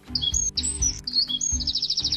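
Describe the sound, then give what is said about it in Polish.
A wren sings at sunrise, joining a tit in the dawn chorus, with high, bright whistled notes and quick warbled phrases that end in a fast, loud, repeated trill. “Do sikorki pół godziny później dołącza strzyżyk.”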